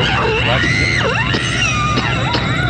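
A woman screams in a horror film death scene: loud, continuous, echoing cries that waver and swoop up and down in pitch for the whole stretch.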